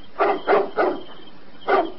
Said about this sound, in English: Seems like you're barking at something up that tree.